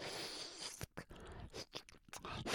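Close, quiet licking and eating sounds in an ASMR roleplay: a run of soft wet smacks and crunchy bites separated by short pauses.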